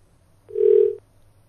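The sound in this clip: A single steady electronic telephone tone signalling an incoming call. It lasts about half a second, mid-pitched, and stands alone against near-silence.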